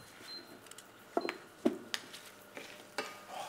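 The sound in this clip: Seeds roast in a pan, giving off a handful of sharp, faint pops and crackles scattered irregularly over a quiet, hissing background.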